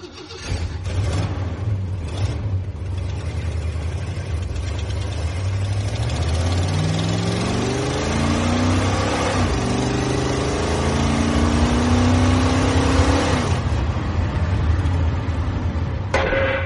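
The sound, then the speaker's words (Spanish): An Impala car engine revving, a loud sustained rumble whose pitch climbs through the middle stretch and then holds high before settling, heard alone with no voices. “Mi impala es mi más fiel compañero. Y su voz es el sonido del motor”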